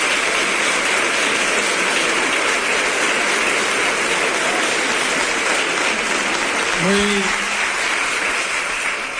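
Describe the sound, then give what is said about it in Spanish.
An audience gives an ovation to the mayor of Huelva at a formal civic ceremony: a steady, loud wash of clapping runs throughout, with a brief voice breaking through near the end. “del alcalde de Huelva, Gabriel Cruz, ante esta gran ovación.”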